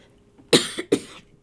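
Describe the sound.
A person with a frog in the throat clearing it with a few harsh, rough cough bursts in quick succession, loud and alone without any talk.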